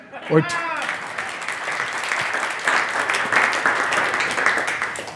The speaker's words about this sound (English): some of you who struggle to express enthusiasm in church, I exhort you to clap